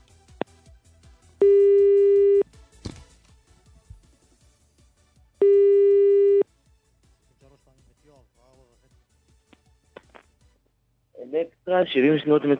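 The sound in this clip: Telephone ringback tone on an outgoing call to a listener: two loud, steady tones about a second each, separated by a long pause, followed near the end by a brief louder burst of other sound.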